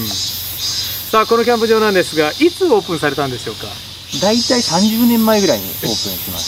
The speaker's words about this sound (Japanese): もう当然ながら今これ、 まあ、キャンプ場でお話をお伺いしてるんですけど、 セミ鳴いてますからセミなんかも取り放題ですよね